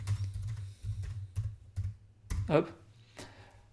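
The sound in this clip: Typing on a computer keyboard: a few sharp, separate key clicks at an irregular, unhurried pace, quiet overall, with a voice talking softly underneath.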